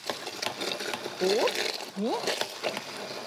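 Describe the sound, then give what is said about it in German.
A blender purées frozen berries with a steady buzzing whir and grainy, pulsing texture. The motor pitch swoops upward twice, all at a fairly low level. “Und das hier püriere ich einmal.”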